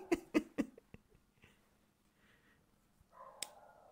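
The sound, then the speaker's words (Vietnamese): A dog barking outside: three short, sharp barks in quick succession at the start, fairly faint, followed by quieter scattered sounds and a brief tonal noise near the end. “Đấy bạn bạn có nghe thấy tiếng chó sủa không bạn này? Đấy, bên ngoài con chó nó sủa đấy.”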